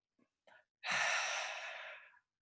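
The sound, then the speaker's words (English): A deep breath drawn in through the nose: one long, airy inhale lasting over a second, fairly loud and steady. A couple of faint short breathy sounds come just before it. “I take a deep breath in through the nose,”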